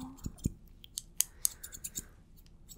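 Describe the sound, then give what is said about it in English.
Crisp scissor snips cutting hair during a mock medical exam. Several light, sharp clicks fall at uneven intervals, soft and close, with no voices. “I'm gonna have to cut some of your hair for the exam, so I'm just going to...”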